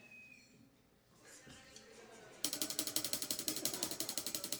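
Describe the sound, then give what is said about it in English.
A spinning prize-wheel sound effect: after a quiet, murky start, a rapid run of sharp ratcheting clicks begins about halfway through and continues steadily to the end. “so we're going to do the Wheel of Influence noise, right?”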